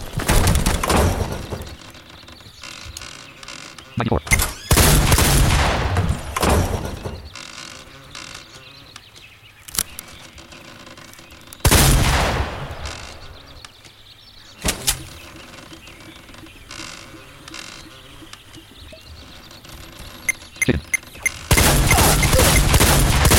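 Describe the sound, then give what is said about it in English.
Bursts of gunfire in a shooting video game fired at a player through a building: several loud, rapid volleys separated by quieter stretches, with sharp isolated shots between them. “Yo, I just shot you through the motherfucking building.”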